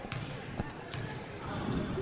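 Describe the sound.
A basketball bounces a few times on the court as a player readies a free throw during a game, giving short, sharp thuds over a steady background murmur that grows slightly louder toward the end.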